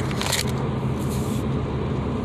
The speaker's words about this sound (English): I am currently driving back home